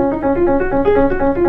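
Piano playing notes from Bach's Prelude No. 15 in G major from the Well-Tempered Clavier Book 2, a quick, evenly paced run of many short notes that alternate between a few nearby pitches.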